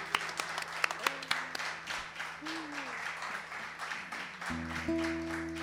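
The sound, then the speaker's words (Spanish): Audience applause, a fairly faint, continuous patter of clapping that carries on throughout, with a steady tonal hum beneath it. “Un aplauso para Paco Hermier.”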